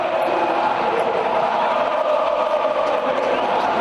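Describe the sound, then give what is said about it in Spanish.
Football supporters chant at a Betis versus Sevilla derby at the Ramón Sánchez Pizjuán stadium, a dense, unbroken roar of massed voices that stays loud and steady. “El jueves todos al cine, cantaban los béticos a los sevillistas refiriéndose al partido de Copa que va a jugar el Betis. Respondían con menos gusto los sevillistas.”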